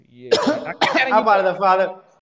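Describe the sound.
Two sharp bursts of coughing are heard while someone speaks, followed by rough, voiced throat sounds. The whole passage is fairly loud and mixed with talk.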